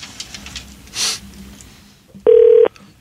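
A single telephone keypad tone sounds as a number is dialed, a steady electronic beep lasting under half a second that follows a brief soft burst of noise.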